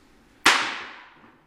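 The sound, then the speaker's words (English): A single gunshot rings out at a crowd gathering where a man was addressing people. A sudden loud crack is followed by a broad, hissing tail that fades over about a second, with no voices. “That was gunfire that you heard.”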